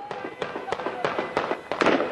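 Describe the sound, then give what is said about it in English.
Guns fired in celebration of a prisoner release in the streets of Ramallah: many sharp, cracking shots in quick, irregular succession, clustering more densely toward the end. “Guns were fired in celebration of the first prisoner release since Mahmoud Abbas”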